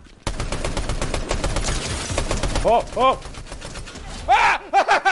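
Rapid automatic gunfire from a Fortnite match, a dense, loud burst for about two and a half seconds, then a few shorter shots mixed with voiced exclamations.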